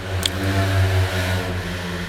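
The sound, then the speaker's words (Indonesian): A motorcycle engine is heard from inside a parked car as a steady, low, droning hum that runs continuously and fairly loud, with no talking. “berisik banget ya suara motor. Mohon maaf, itu semoga enggak kedengeran karena saya lagi-lagi merekamnya di dalam mobil”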